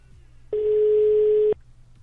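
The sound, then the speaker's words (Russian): A telephone ringing tone while a call goes through: one steady, clean, mid-pitched tone lasting about a second, starting and stopping abruptly over a faint low hum. “Так, звоним Мухе.”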